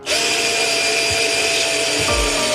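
A power tool whirs steadily while someone makes screw adjustments on a piano. The whine holds a constant pitch throughout, and a few low thumps come near the end.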